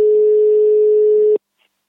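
Ringback tone of an outgoing telephone call placed to Huelva: a single steady, mid-pitched tone holds for about a second and a quarter, then cuts off abruptly into near silence.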